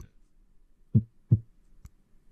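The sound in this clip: A heartbeat sound effect: a single low double thump, lub-dub, in near silence, followed by a short faint click.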